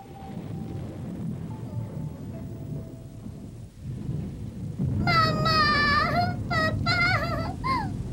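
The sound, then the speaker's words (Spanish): Thunder rolls as a deep, continuous rumble under steady rain, swelling louder in the second half, where a high, wavering vocal cry rises above the storm. “Que no haya relámpagos, que no suenen los truenos, por favor.”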